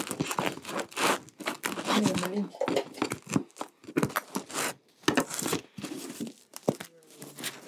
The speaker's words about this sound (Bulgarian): Разрежи ни хляба, моля